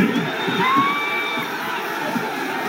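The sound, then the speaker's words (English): A crowd cheers in Cleveland after the Guardians beat the Detroit Tigers 7-3 in Game 5 of the American League Division Series, a sustained, loud roar of many voices with shouts and whoops. “They are cheering in Cleveland.”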